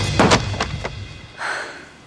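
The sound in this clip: A door opens as someone walks into a young woman's room without knocking: a few short knocks and thumps, then a softer rustling swish, with no voices.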